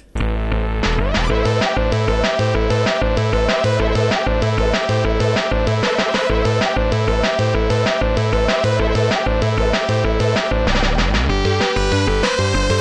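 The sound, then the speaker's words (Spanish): A computer-made electronic music track from a demoparty plays with a steady, driving beat and repeating bright synth patterns, loud and continuous throughout, with no voices. “Y vamos a terminarlo, como siempre, escuchando un track, una canción realizada por ordenador.”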